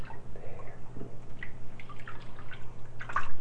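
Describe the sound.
Water drips and splashes as a young child is washed in a bath, scattered soft plinks over a steady low hum.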